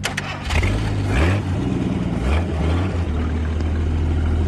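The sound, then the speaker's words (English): Formula One race car engine in a racing video game revs loudly and continuously, its pitch climbing in several sweeps like gear changes. “Formula One action. Here we go.”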